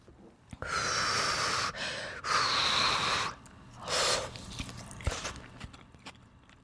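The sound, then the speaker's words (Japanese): Crunchy biting and chewing of a hot, freshly microwaved dish with crisp green onions: a few loud, dense crunching bursts, then softer, scattered chewing noises, with no talk. “シャキシャキいってるしね、ネギのシャキシャキもいいですし”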